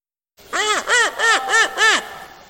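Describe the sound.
A human voice imitates a bird's squawk with five evenly spaced, loud, caw-like calls, each rising and then falling in pitch.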